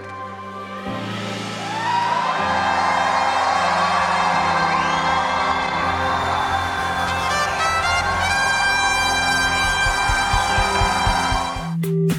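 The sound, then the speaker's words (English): A church audience lets out a huge shout of praise, a loud, sustained wave of cheering, whooping and shouting that fills most of the moment, with music sounding underneath. “I want every person to lift up a huge shout of praise as you welcome the power and presence of God into your world. One, two, three.”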